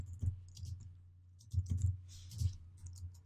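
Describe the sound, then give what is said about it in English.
Computer-keyboard keystrokes as code is typed, faint irregular clicks in small clusters over a low, steady hum. “And I'm going to type the following.”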